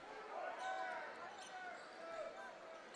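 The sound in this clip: A basketball is dribbled on a gym floor during a high school boys' game, with a few faint bounces under a man's steady talking.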